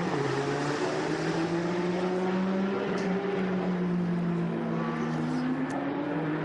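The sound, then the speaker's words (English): A Porsche race car drives on a race track while working through traffic, its engine a steady, loud drone whose pitch wavers and shifts slowly, with no voices. “It's Oleksiy Kirishenko in the double eights up to race Porsche, trying to get through some traffic.”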